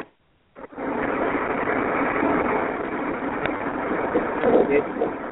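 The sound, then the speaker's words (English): Steady drone of a car engine and road noise while driving, an even, continuous rumble that holds at a constant level throughout. “But I am driving right now.”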